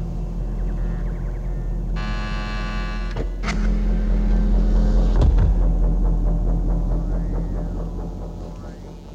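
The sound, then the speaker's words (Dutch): A spaceship's main engine starting in a science-fiction drama: a low hum, then a short buzzing tone, then a sharp click as a deep rumble swells, holds and slowly fades. “Alles klaarmaken om de hoofdmotor te starten.”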